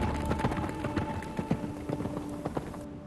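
Horse hooves clip-clop in a steady, quick rhythm of many soft, faint hoofbeats, with a thin tonal hum underneath.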